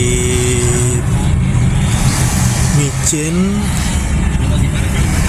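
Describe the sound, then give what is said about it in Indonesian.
Road traffic crawls in a jam near a market, a dense, steady wash of engine rumble and vehicle noise that stays loud and continuous throughout with no clear breaks. “sudah mulai macet lagi.”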